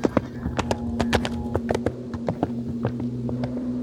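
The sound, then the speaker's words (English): Horse hooves clip-clopping as a horse laden with beaver pelts is ridden away: many sharp, irregular hoofbeats over a steady low hum. “Mr. Pilcher is about to ride away on Molly with all our beaver pelts and wearing my pants.”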